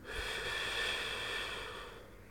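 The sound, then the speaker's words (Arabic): A single slow, deep breath taken during a guided breathing exercise, drawn out as a soft, steady airy rush that fades slightly toward the end. “خذ نفسا عميقا، احبس هذا النفس. الزفير ببطء وهدوء. شهيق، زفير،”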